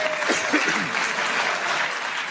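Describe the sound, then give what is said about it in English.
A studio audience applauds at a radio comedy quiz recording. The dense clapping stays steady and fairly loud from start to finish. “I thought I'd get a cheap round of applause for that and some kind of pity and laughter.”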